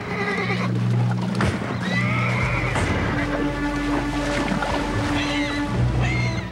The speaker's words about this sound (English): canters along the shore, whinnying to her foal.